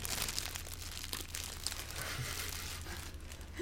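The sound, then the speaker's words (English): Crinkling of a plastic bag, handled for an ASMR recording: a continuous dense rustle and crackle that stays fairly steady throughout, with no voices. “We're getting some nice ASMR of the bag now. Yes, the bag.”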